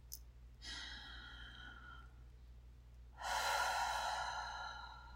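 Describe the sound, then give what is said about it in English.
Slow, deep human breathing: two long drawn breaths, the second louder and fuller than the first, both faint over a steady low hum. “Just breathe for me. Nice, big, deep breaths. Slowly.”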